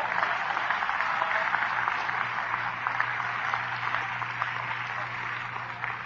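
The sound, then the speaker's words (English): A crowd clapping hands: steady, dense applause that holds at an even level for the full six seconds, with sharp individual claps flickering through and no talk. “Clap your hands, somebody.”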